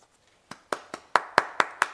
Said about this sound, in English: I mean, I'm going to clap for you because not a lot of people actually make that we'll decision.